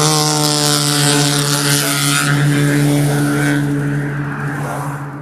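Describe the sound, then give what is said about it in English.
A loud vehicle engine passes by a walker on a rocky outdoor path at sunset, a steady, droning hum that holds strong for several seconds, then slowly fades toward the end. “Rather loud vehicle, probably obscuring the fact that a rabbit was just scurrying its way”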